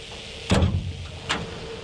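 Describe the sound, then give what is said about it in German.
A dark green sheet-metal door at the base of a wind turbine tower being opened: two faint, dull metallic clunks over a steady background rush. “Die dunkelgrüne blecherne Tür am Fuß des Windradturms wird geöffnet.”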